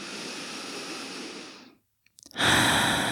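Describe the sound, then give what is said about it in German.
Deep breaths through an open mouth during a seated relaxation exercise: a long, loud, airy exhale fades out, followed by a short silence, a few faint clicks and then another strong breath. “Und dann nimm direkt ein paar tiefere Atemzüge ein und aus. Gerne mal durch den geöffneten Mund.”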